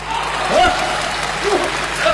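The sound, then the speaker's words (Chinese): An audience applauds during a live stage performance: a steady wash of clapping runs throughout while voices talk over it. “大伙儿还给鼓掌呢， 观众鼓励我呀。”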